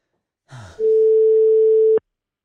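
A telephone tone while placing a call: one long, steady, loud mid-pitched beep lasting about a second, preceded by a brief burst of other sound.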